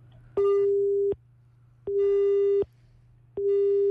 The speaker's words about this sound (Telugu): Okay, call అయితే cut అయింది.